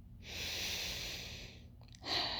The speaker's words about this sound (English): Take a deep breath in.